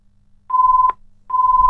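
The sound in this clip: A telephone rings with two steady, pure-pitched electronic tones, each under half a second long and separated by a short silent gap, the second one running to the end.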